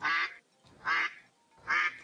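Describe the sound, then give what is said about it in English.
A group of ducks quacking: three loud, nasal quacks spaced evenly about a second apart, standing alone with quiet gaps between them. “Number 13 was a group of ducks with two legs.”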